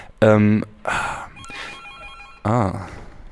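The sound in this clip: A telephone ringing, a brief electronic trill of steady tones set between bursts of speech, with people talking before and after the ring.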